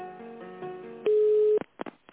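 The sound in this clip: A telephone line tone sounds while a call is being transferred to another person: soft tonal hold sounds give way to one steady, loud beep-like tone lasting about half a second, followed by a few short clicks.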